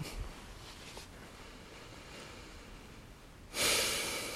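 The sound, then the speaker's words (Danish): A deep breath is drawn in as a sudden, fairly loud airy rush of hiss near the end. Before it there is only a faint, steady background hush. “Nu må du i hvert fald gerne tage tre gode dybe indåndinger helt ned i maven.”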